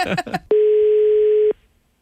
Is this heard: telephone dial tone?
yes